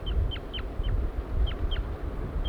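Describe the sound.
A male bird gives flight calls as it leaves its nest, a series of short, high, downward-sliding chirps spaced irregularly over a steady low rumble.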